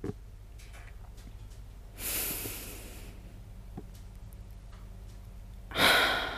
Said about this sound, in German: Ich atme gerade noch einmal ein.